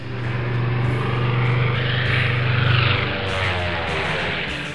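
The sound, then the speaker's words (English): A German bomber flies overhead during a wartime night attack on a small naval escort ship off Sicily, a loud, steady propeller drone with a low engine hum that swells slightly midway. “One night, a German bomber came overhead.”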